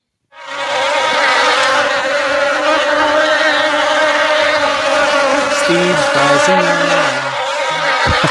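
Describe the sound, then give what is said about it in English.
A swarm of bees in a beehive gives a dense, continuous buzzing drone that holds loud and steady throughout, with no voices. “Sounds like a swarm of insects. There you go. Bees. That is a beehive.”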